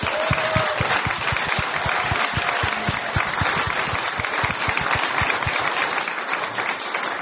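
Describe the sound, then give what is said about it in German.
At a church service in Germany, an audience claps together for Jesus. Many hands strike in a steady, rhythmic beat, producing a long run of regular, evenly spaced claps at a consistent loudness. “Can we put our hands together for Jesus? Können wir für Jesus klatschen?”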